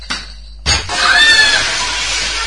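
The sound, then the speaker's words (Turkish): Glass breaking after a kicked football shot: a loud crash, then a noisy, shattering rattle that lasts over a second with a few thin, ringing tones, and a soft thud a moment before the crash. “Eyvah, cam kırıldı.”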